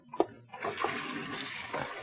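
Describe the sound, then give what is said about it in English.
Water runs as someone washes their hands: a quiet, steady rushing flow that follows a couple of soft knocks at the start. “No, no. Wait till I wash my hands.”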